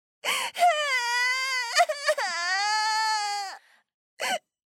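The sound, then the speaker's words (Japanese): A woman wails and cries in long, high, drawn-out voiced cries that bend in pitch and break briefly a few times, then end with one short sob after a pause. “ごめん、泣かないで”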